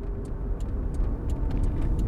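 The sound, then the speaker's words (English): A car drives on a highway toward Malibu, a steady low road rumble with no pauses, and faint regular ticks sit on top of it. No one speaks. “As we're on the highway, driving back to Malibu, following the route that Elaine must have taken that last night”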